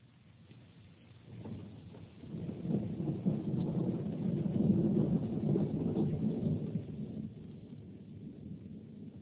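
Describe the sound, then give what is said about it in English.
Wind and rain: a muffled, low rushing that rises from a quiet start, swells to a peak midway and then eases a little, faint throughout. “It's raining. And it's windy.”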